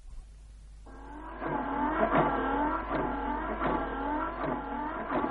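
A car engine, just repaired, starts up and keeps running with an even, whirring hum. Its tone wavers in regular pulses as it idles smoothly at a moderate level, with no voices.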